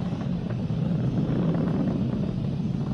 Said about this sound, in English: Reports say all systems are go. Vehicle is supersonic. We've exceeded Mach 1 on the Falcon 9.